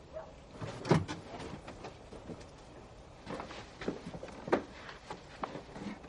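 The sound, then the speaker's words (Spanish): A house door being opened at night, heard as a few brief clunks and rattles over a soft, steady background, all fairly faint. “El padre de Stiepan les abre la puerta.”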